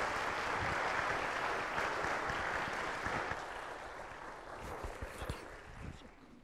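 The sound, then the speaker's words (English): A church audience applauds to welcome a guest speaker, an author of a commentary on Revelation, as he comes forward. The clapping starts dense and loud, then gradually thins and fades toward the end. “Would you open up your hearts and your minds and put your hands together for John as he comes? Just welcome him.”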